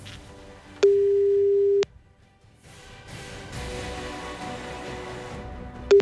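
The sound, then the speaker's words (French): A telephone call is placed to a radio phone-in listener: one steady tone lasts about a second, then gives way to a rising hiss of line noise before a short tone returns at the end. “Nous appelons tout de suite un des premiers SMS de réponse que nous avons reçus.”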